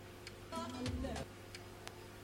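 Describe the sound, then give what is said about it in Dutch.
Faint, evenly spaced ticking from an optical disc drive as the disc spins and the laser moves: a handful of sharp clicks over a steady low hum, with a voice briefly heard in the middle. “In het begin doet hij het ook het snelst. Tikken, tikken, tikken, tikken, tikken, tikken, tikken, tikken, tikken, tikken, tikken, tikken. En aan het eind toe dan gaat het natuurlijk langzamer draaien die schijf. Dan gaat die laser op en neer natuurlijk.”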